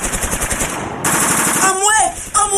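Machine gun fire during a violent clash: loud, rapid, steady bursts of sharp shots that keep going without a break.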